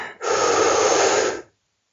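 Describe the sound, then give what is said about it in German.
A single deep breath in, a strong airy rush that starts abruptly, holds steady for just over a second, then cuts off into silence. “Tief einatmen.”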